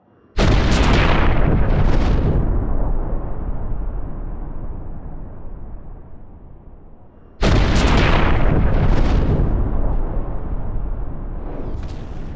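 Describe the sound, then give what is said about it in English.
Bombs explode while destroying a palace: two massive, loud blasts several seconds apart, each bursting in sharply and then dissolving into a long, heavy rumbling decay that slowly fades before the next strike. “One by one, bombs are launched at the palace, destroying it, and leaving it in only a cloud of silt.”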